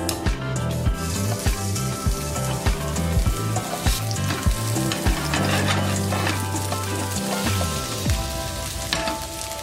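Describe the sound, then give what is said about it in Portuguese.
Small rolled balls of food fry in a little olive oil in a pan, giving a steady, lively sizzle with frequent crackles and pops that keeps an even loudness throughout, with no talking. “E eu vou colocar isso para fritar com um pouco de azeite.”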